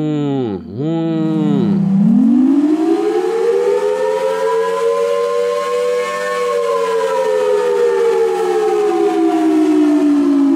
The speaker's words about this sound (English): the most ever-present sound in that entire leap in is the sound of the air raid siren. Just going,